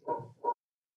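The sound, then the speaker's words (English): A dog barks twice in quick succession, a longer woof followed by a shorter one, both fairly quiet, then silence. “Even Merlin agrees. Ah, that Merlin. That Merlin's a good doggo.”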